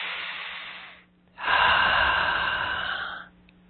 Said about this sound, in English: Nice deep breath.